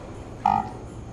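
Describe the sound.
A computer gives a single short buzzing alert, a nasal, mid-pitched tone lasting about a fifth of a second over a steady low background hum.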